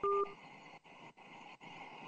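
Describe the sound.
One short, clear electronic beep as a phone call disconnects, followed by steady faint line hiss broken by a few brief dropouts.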